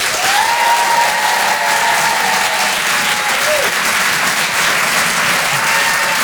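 A theatre audience at the Apollo in Paris applauds a comedian as a live comedy show begins, with dense, steady clapping that stays loud throughout.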